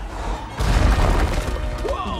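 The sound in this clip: An armored robot fist launched like a rocket: a sudden loud roaring blast bursts out and becomes a sustained rushing boom, with brief whistling tones near the end.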